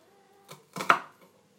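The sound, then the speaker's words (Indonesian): A knife chops half an onion on a board, producing a few soft, separate taps in a short moment, quiet and unaccompanied. “aku lagi motongin bawang bombay”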